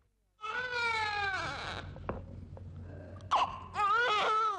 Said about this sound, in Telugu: ఏడుస్తున్నాడు చూడు.